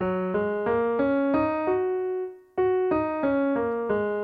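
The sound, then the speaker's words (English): Major pentatonic scale played on a sustained-tone instrument: evenly spaced notes step upward to a held top note, then step back down, each note smooth and steady in volume, played alone. “So a pentatonic scale, specifically the major pentatonic, sounds like this.”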